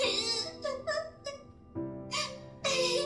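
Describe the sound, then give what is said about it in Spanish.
A young girl crying in the video game Deemo: broken whimpering and sobbing in several short bursts, with wavering, high-pitched wails rising and dropping between brief pauses. “No soporto ver a una niña llorar. Por favor, no llores. No llores.”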